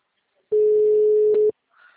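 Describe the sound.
A telephone ringing tone while a call is placed: one steady, mid-pitched electronic tone that holds for about a second and then stops, followed by a faint brief sound.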